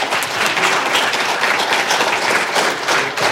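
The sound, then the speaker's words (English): A church audience applauds to welcome a guest speaker, producing loud, continuous clapping that stays dense and even throughout. “And I just want to welcome, give him a warm welcome here tonight.”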